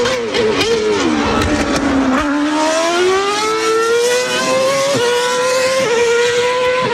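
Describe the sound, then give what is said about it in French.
Formula 1 race car engine screaming at a high, loud pitch with no talk; the whine dips briefly, then climbs steadily and holds high, with small wavering in the tone. “Si vous avez un voisin qui regarde les Grands Prix de Formule 1 sur Canal+, il est possible qu'il monte un petit peu trop le son.”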